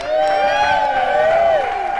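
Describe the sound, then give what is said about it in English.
An audience at a San Francisco supper club cheers for a pair of performers, with loud, sustained whoops that glide up and down in pitch over a bed of crowd noise and applause. “Ladies and gentlemen, give it up for Fred and Ginger.”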